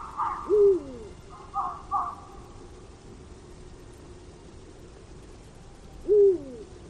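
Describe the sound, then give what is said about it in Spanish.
Two Eurasian eagle-owls call at night in an oak wood in winter. A deep, downward-sliding hoot sounds, then comes again after a long pause, with a couple of higher, hoarser calls in between. “este canto, este que dice bú, es el búho real. Es la llamada de los búhos reales.”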